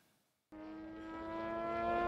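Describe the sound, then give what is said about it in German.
A model airplane engine starts abruptly after a brief hush, then buzzes with a steady, bright, whining tone that gradually grows louder. It is faint overall. “im Recknitztal nämlich, wird seit 30 Jahren Modellflug betrieben”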